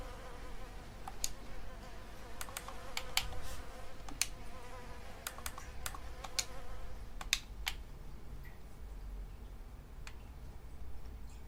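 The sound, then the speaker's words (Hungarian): Flies buzzing around a person who has stopped for a moment, a steady faint insect hum broken by scattered sharp clicks. “valahol megállok egy rövid időre, akkor megjelennek körülöttem a legyek.”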